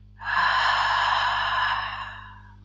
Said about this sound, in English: One more breath in, make it passionate. And exhale any negativity.